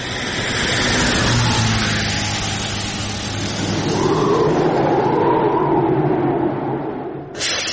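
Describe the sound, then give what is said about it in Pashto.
A truck engine roars steadily and loudly as the vehicle approaches on a cold, windy desert road, the deep rumble holding throughout with no voices. “دا ته ودرېږه، یوه لارۍ خو راغله”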